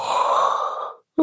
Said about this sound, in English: Did I make you yawn then?